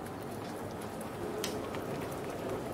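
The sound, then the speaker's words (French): Rain falls steadily as a continuous, soft, even hiss of drops, faint and unbroken throughout with no distinct individual events. “il pleut, quoi.”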